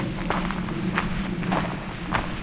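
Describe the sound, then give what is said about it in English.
Footsteps walk along a nature preserve trail. About four steady, evenly spaced steps sound over a constant outdoor hiss. “in Johnson Harbor, also known as Pine Tree Point Nature Preserve, fairly lengthy trail. I'm not going to be walking all of it today.”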